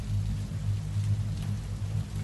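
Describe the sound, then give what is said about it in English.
Rain falls as a steady, even hiss over a low, continuous rumble, unbroken and moderately loud throughout. “why don't we get out of the rain?”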